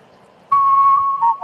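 Human whistling of the US national anthem by a champion whistler: after a quiet start, a clear, loud, sustained high note, then two shorter notes at slightly lower pitch.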